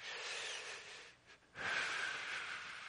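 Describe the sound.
Slow human breathing in and out: a long, airy breath, a brief near-silent pause, then a second, stronger breath that carries on to the end.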